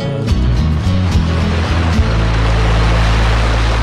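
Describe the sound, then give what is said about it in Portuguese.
Rushing water from a waterfall makes a loud, steady roar that stays constant to the end. “Aí o ruído das águas da cachoeira.”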